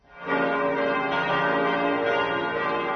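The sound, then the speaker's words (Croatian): Orthodox church bells ring at midnight to mark Christmas, heard as a loud, dense, continuous wash of overlapping tones that swells in quickly and holds steady without distinct separate strikes. “Zvona sa crkvenih hramova u ponoć simbolično su oglasila trenutak rođenja Sina Božijeg Isusa Hrista.”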